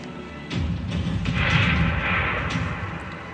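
Tank combat from the video game Civilization 6: after a short quiet start, a loud, dense rumble of crashing battle noise with booming impacts rises and holds steady for about three seconds, with no voices.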